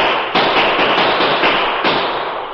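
Gunshots fired in moonlight at a stagecoach's driver and shotgun guard: a loud, dense, sustained burst of crackling gunfire with sharper blasts breaking in, no voices.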